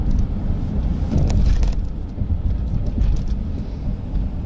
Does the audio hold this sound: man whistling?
no